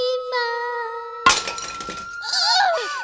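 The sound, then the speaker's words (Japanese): A single sharp crash of a roof tile being smashed with a hammer at night, its broken fragments scattering briefly. Steady electronic tones come before it, and warbling tones follow. “それからというもの、夜になるとどこからともなく姉妹の瓦を割る声が。”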